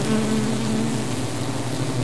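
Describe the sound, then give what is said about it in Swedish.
Honeybees buzzing around five large beehives in an apiary, a steady low droning hum that holds evenly throughout with no voices. “Här är alltså en av våra bigårdar och här finns då nu 5 stora bikupor.”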